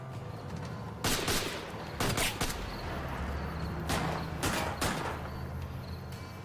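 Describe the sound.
Gunfire breaks out as someone shoots at a man's residence on a cold December night, with several separate loud bursts of rapid shots between steadier background noise.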